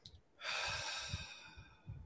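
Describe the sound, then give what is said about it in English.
A deep breath drawn in during a group movement lesson: one long, airy inhalation lasting about a second and a half, steady and fairly loud, with faint low rumbling before and after. “Everybody just take a deep breath in”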